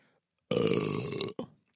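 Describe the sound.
A loud, drawn-out burp lasting under a second, followed by a much shorter second burst, with quiet around it.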